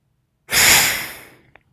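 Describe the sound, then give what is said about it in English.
One deep breath is pushed out through the nostrils, a strong airy rush that starts abruptly and fades over about a second, ending with a tiny soft click. “Deep breath through both nostrils and exhale, side two.”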